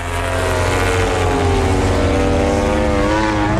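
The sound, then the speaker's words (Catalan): A Ducati MotoGP racing motorcycle engine roars loud and continuous at high revs, a dense, buzzing whine with layered harmonics holding nearly steady throughout. “va camí d'aconseguir la primera victòria amb una MotoGP amb aquesta Ducati de l'equip Muni BR46, l'equip de Valentino Rossi. Aquesta és la moto de Bezzecchi.”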